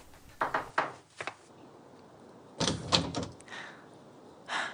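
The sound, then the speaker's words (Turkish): Knocking on the wooden door of a single-storey house: a few sharp, hollow raps in an uneven first cluster, then a louder burst of knocks after a short pause, and one more faint rap at the end. “Eli ayağına dolaşmış bir halde etrafına bakınarak çaldı kapıyı.”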